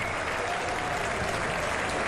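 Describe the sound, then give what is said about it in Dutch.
A stadium crowd at a professional football match applauds the goalkeeper with dense, even clapping that holds at a steady level throughout, with no distinct voices. “Ja, applaus voor de doelman.”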